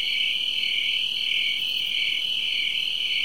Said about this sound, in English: Particularly that one insect you just heard making a racket.